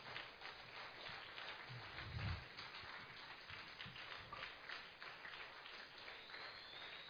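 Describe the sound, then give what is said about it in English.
Audience applause in a church service: a dense, steady patter of many hands clapping that holds an even loudness for the whole stretch, with no voices over it. “If you are clapping for me, it's too much. But if it's for Jesus,”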